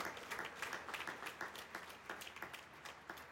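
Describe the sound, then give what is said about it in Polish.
Audience applause in a church hall welcoming pastors and believers at a sermon, a faint but continuous patter of many hands clapping at an even rhythm throughout. “Oklaskajcie.”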